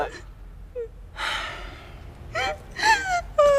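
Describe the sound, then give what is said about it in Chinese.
A frightened person cries and whimpers while trapped with others waiting for rescue: gasping breaths, then short, wavering, high-pitched sobs that grow louder and more frequent toward the end. “别哭了”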